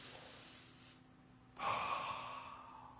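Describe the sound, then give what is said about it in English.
People drawing a deep breath in: after a quiet stretch, a single long, airy inhale swells up suddenly and then slowly tapers off, soft and breathy with no talk. “Now let's do that. Let's all take a deep breath in.”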